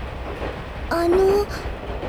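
A train runs on rails with passengers aboard, giving a steady low rumble throughout. A brief high tonal squeal rises out of the noise midway.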